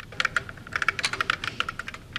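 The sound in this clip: Typing on a computer keyboard, used to converse with a chat program: many quick, irregular key clicks in an uneven rhythm, fairly quiet and with no talking.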